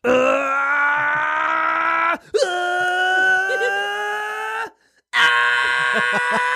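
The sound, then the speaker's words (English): A voice imitates the power-up screaming of an anime fighting series in three long, loud, strained yells with brief breaks between them. The pitch creeps upward through the first yell. “I've watched a lot of things poking fun at Dragon Ball Z because of how much screaming there is and how many big like just blasts there are”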